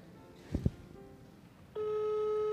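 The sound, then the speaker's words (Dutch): Telephone ringback tone as a call is placed while standing on a square in the Pijp neighbourhood. A couple of soft clicks come first, then a loud, steady electronic tone sounds and holds evenly to the end. “ik moet hem even bellen. Want ik ben het huisnummer vergeten.”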